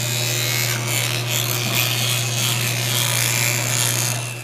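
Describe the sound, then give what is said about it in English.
An electric toothbrush brushing teeth gives a steady, high buzzing drone with scratchy bristle scrubbing over it, continuous and even throughout. “This is the sound of me brushing my teeth.”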